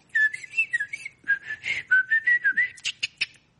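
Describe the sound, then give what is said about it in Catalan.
Whistled imitation of a Eurasian blackcap's song: a quick, soft run of clear warbling phrases, gently rising and falling, ending with a few sharper, higher chirps. No talking is heard. “Què fa el tallarol de Casquet? És una mica complicat, no?”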